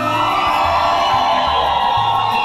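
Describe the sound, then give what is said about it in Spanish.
Cheering and shouting from a radio station's live audience in the Valley of Mexico, a dense, loud, continuous crowd roar that holds steady throughout. “Gracias, señores, una bulla de todo el Valle de México.”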